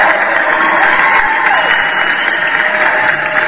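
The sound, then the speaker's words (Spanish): Applause sound effect: a loud, steady wash of dense clapping that holds at an even level throughout, with no talk over it. “le vamos a poner sus aplausos, por supuesto.”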